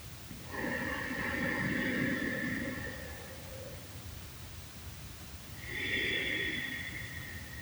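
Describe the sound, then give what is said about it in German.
Slow, deep breathing during a guided belly-breathing exercise: one long, airy breath lasting about three seconds, a quiet pause, then another soft breath, with no talk. “indem das beim Einatmen die Bauchdecke sich hebt, mit dem Ausatmen die Bauchdecke wieder senkt. Ein zweites Mal.”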